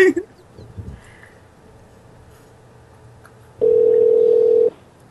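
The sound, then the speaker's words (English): Telephone ringback tone on an outgoing call: after brief voices and a quiet line, one steady, loud electronic ring sounds for about a second and stops. “How many rings was that?”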